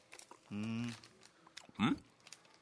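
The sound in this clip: Faint crunching of someone chewing a wasabi-flavoured hard candy, with small scattered bites around two short vocal sounds.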